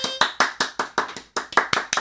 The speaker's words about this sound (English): How about a round of applause? We're doing that right now.